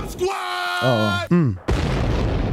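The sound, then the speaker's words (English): Double bomb explosion sound effect: tonal sweeps that drop in pitch, followed by a sudden loud, noisy blast that rumbles on to the end. “Drop a double bomb. I do my best.”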